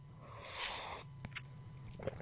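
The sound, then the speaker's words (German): A quiet sip of coffee, heard as a brief airy slurp, followed by a few faint clicks and small mouth sounds. “Ich trinke nochmal einen Schluck Kaffee.”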